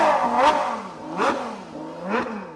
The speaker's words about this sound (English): A publicity-shy Arab prince floors the accelerator of his red Ferrari as part of the soundtrack of this ostentatious event.